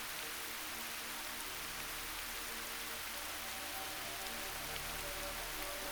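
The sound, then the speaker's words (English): Rain falls steadily on a surface, making a continuous, even hiss of drops with no gaps. “I want you to listen to the sound of the rain as it makes its way into your hearing.”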